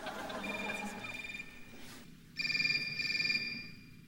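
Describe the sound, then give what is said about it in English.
Mobile phone ringtones sounding together in a concert telesymphony performance, faint sustained electronic tones layered into chords, pausing briefly before a louder cluster of ringing tones returns. “It might have been safer, if not as emotionally satisfying, to go to a concert with this piece on the program. It's called Dial Tones, a Telesymphony, written in 2001 and 2002 by a team including Golan Levin.”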